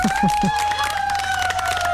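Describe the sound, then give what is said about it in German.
Audience applause for the leader of a music group, a dense steady patter of claps heard together with sustained musical tones and a voice at the start. “Ein Applaus nochmal für Karin.”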